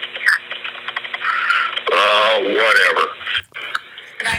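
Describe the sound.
A 911 operator typing fast on a computer keyboard: rapid clicking heard through a phone line, mixed in with people talking.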